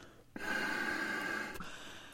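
A person blowing hard into a bag held under the arm: one long, forceful rushing exhale of just over a second with a faint steady tone inside it, quiet overall and alone.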